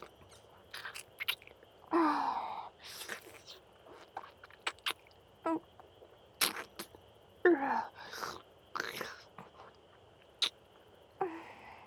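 Chewing while eating, with soft, wet, sticky mouth sounds, bites and smacks coming in short irregular bursts separated by brief quiet gaps, faint and close throughout.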